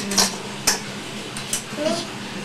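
A wok and dishes being handled give off a few short clinks and knocks, light and spaced apart over a low background.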